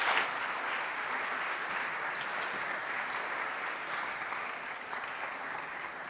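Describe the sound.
Audience applause welcoming two speakers to an onstage talk, an even, fairly soft patter of many hands sustained for about six seconds without a break.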